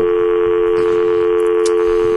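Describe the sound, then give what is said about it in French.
A telephone dial tone sounds as a call is about to be dialled. It is a loud, unbroken hum at one fixed pitch, with a couple of faint brief ticks over it. “vas-y, on appelle Dieu. Tout de suite, on l'appelle.”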